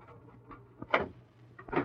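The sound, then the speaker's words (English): A safe lock in a store being worked open gives a few faint metallic clicks and clunks, spaced unevenly, with a sharper pair near the end. “There may be something of interest in the safe. Well, this type of lock, pretty easy. Not take very long to open.”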